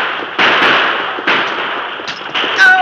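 Gunshots ring out as outlaws attack a stagecoach. Several sharp, loud reports, each with a noisy decay, come at irregular intervals.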